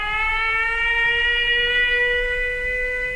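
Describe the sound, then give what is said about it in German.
Air raid alert siren in Ukraine: a loud, steady wailing tone rich in harmonics that holds for the whole stretch, its pitch creeping slightly upward, with no voices over it. “Attention, air raid alert. Proceed to the nearest shelter.”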